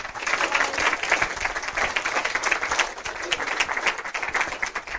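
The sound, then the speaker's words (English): An audience at a University of Virginia event applauds to welcome a speaker, with dense, steady clapping that continues throughout. “Please put your hands together and join me in welcoming.”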